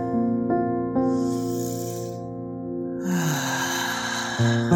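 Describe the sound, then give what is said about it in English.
Long, airy deep breaths taken to center oneself, softly rushing in two drawn-out stretches over a steady sustained musical drone. “Let's take a deep centering breath.”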